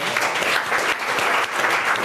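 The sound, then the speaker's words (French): An audience applauds with a brisk, continuous patter of many hands clapping, with small swells and dips but no break. “Est-ce que c'est un incroyable défi qu'on applaudit, s'il vous plaît?”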